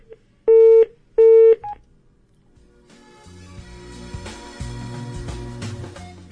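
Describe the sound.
Telephone tones after a dropped call: two short, steady, loud beeps close together, then quiet.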